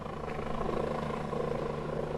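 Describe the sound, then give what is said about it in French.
Helicopters flying through a river valley from Breil toward the upper Roya after a storm, a steady, continuous rotor and engine drone that holds an even loudness throughout. “Et donc, les hélicos partent d'ici à Breil pour rejoindre la Haute-Roya.”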